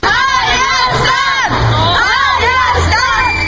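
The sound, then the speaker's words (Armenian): Dense crowd noise fills busy central streets of Yerevan on a holiday, a loud, steady wash of many voices with scattered shouting and cheering running throughout. “Երևանի կենտրոնական փողոցներն այսօր ավելի բազմամարդ էին։”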